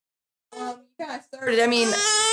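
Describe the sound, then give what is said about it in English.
A fussy baby cries: two short whimpers break off, then a louder sustained wail carries on without pause. “Speaking of, we got a fussy baby.”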